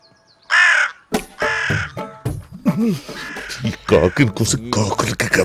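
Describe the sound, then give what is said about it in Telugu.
Crow cawing: a couple of loud, harsh, rasping caws near the start, followed by more calls mixed with people talking. “చూడండి అయ్యా, మనం ఎంత insult చేసినా still నాకేదో communicate చేయాలని ఎంత కృషి చేస్తుందో ఈ కాకి. సారీ, ఈ కాకి గారు.”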